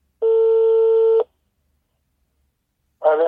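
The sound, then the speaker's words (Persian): Telephone tones sound as a call is placed: a loud, steady electronic tone lasting about a second, then silence, then another tone starting at the very end. “و در نهایت برای اینکه ببینیم واقعا پروتکل ها برای مسابقات باشگاهی ورزش نابینایان ابلاغ شده یا نه، مجددا با آقای حادی زاده تماس گرفتم.”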